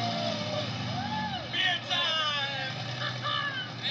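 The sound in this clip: Vehicles drive away from a property in a movie, their engines revving with rising and falling pitch, mixed with other film sounds throughout.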